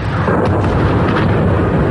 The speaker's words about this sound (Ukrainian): У нас бахает. От взрывов орут машины, пищат здесь по соседству.